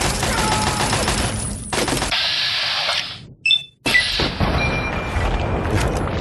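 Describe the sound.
Video game gunfire from raiders attacking across a balcony: loud, harsh bursts of rapid shots that stop and start, with brief silent gaps between volleys.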